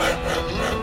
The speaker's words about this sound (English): That's the sound of a cricket bat being shaped.